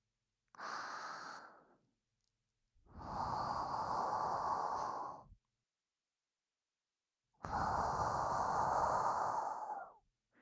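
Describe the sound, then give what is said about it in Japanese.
Three long, soft exhaled breaths, each separated by a moment of silence, let out gently so as not to wake someone sleeping. “音が強くて目を覚ましちゃうかもだし、ここは息を吐く感じで”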